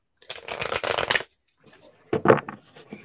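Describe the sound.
Tarot cards being shuffled: a dense, papery riffling burst lasting about a second, followed after a pause by softer, scattered handling rustles.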